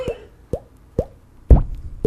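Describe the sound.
Water drop sound effect: five sharp, resonant plops about half a second apart, each with a quick upward pitch bend, the fourth louder and deeper than the rest.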